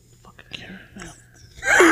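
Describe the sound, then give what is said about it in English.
Faint, raspy wheezing breaths from a man swell into a loud, hissing breath at the end. “This just keeps going. You don't hear that? What? You're wheezing.”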